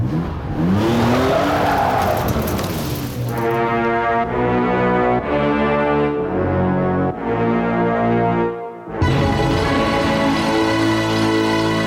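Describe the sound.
A car's engine roars at full throttle as it flees, tires skidding, with an early screeching sweep followed by a series of loud stepped surges in engine pitch and a brief dip before the final roar.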